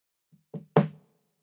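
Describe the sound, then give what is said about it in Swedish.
Light knocking on a wooden door frame: three soft raps, the first very faint and the last the loudest, in a quick sequence. “När han nådde tröskeln så stannade han till och knackade lite lätt på dörrkarmen.”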